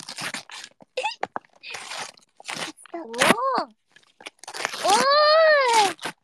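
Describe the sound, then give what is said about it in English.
Crinkly wrapping on a present rustles and crunches in several bursts while people talk, with a high whining, wavering tone rising and falling near the end. “You better open this one, the one that makes the present sound.”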